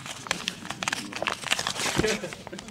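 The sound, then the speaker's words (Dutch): Crinkling and tearing paper as an envelope is opened with trembling fingers at a prize announcement, a dense run of irregular crisp rustles and small rips. “Eh, de naam van de winnaar of de winnares zit in deze envelop. Die ik nu met meer dan, meer dan trillende vingers ga openen.”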